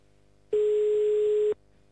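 A single ringback tone sounds on an outgoing telephone call: one steady, mid-pitched tone that lasts about a second and starts and stops abruptly, with quiet line hiss before and after.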